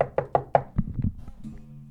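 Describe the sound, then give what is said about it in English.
Four crisp raps on a door come in a quick, even rhythm, followed by a few duller, heavier thuds. A low, steady hum lingers after the knocking. “I bust by you. Knock on the door.”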